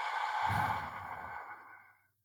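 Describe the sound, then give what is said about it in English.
A long, slow, breathy exhale during a relaxation breathing exercise lasts about two seconds. It is soft and steady, then gradually fades to silence. “Another breath in. Nice, long, slow exhale for everyone listening.”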